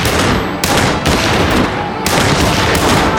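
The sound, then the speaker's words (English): Loud, dense gunfire in a shootout, with overlapping shots packed into a continuous barrage that runs the whole stretch. No single report stands apart. “John and Michael opened fire into anything that moved.”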